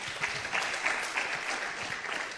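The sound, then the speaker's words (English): Dense, steady applause from many hands at a gathering on pastoral ministry, continuous and fairly even in loudness throughout, with no voices standing out. “Please let me clap.”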